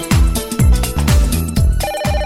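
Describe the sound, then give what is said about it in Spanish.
An electronic telephone ringtone signals an incoming call, playing a loud, repeating tonal phrase about every half second, with a slightly different pattern near the end and no voices. “Tenemos una llamada en línea en estos momentos.”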